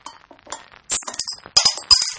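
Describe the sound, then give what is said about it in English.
A beer is opened amid glassy clinks, with a few bright, hissing bursts cutting in sharply after a quieter start. “Can we crack open another beer? Yes. I think so, yeah.”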